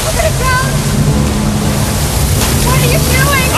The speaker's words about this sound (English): Suddenly, water shoots through holes in the walls.